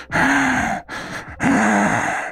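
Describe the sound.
A voice imitates heavy breathing, like someone standing in the dark panting after a bloody fight: loud, rasping, voiced exhales with a softer breath between them, alone with no other sound.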